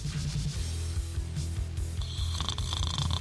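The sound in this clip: Snoring from a man dozing off, low and rough, with several rumbling breaths repeating at an even, sleepy pace and faint rasping on top.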